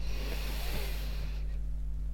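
A deep breath during a guided belly-breathing exercise, heard as an airy hiss that fades out after about a second and a half over a steady low hum.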